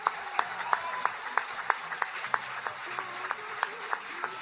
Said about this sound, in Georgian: მე კიდევ ერთხელ ყველას ვთხოვ აპლოდისმენტები ალბატონ გიულის.